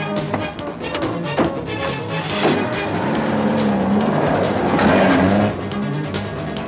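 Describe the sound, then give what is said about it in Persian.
A car engine accelerates, its loud roar swelling over several seconds into a sustained low drone, then easing off toward the end, with a few sharp knocks early on. “خوب در رفتیم محکم بشیم میخوام گاز بدم”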